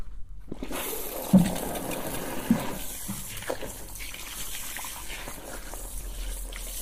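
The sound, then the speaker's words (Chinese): Water runs steadily as a rinse begins during a hair wash, a soft continuous hiss with a couple of small knocks early on. “好了，冲水了。”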